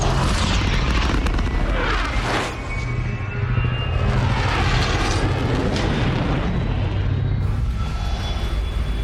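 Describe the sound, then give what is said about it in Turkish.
Spaceship dark matter engines starting at full power, a loud, sustained roar with a deep booming low end and whining tones that sweep and shimmer through the continuous rush. “Karanlık madde motorlarını çalıştır. Tam güç ileri.”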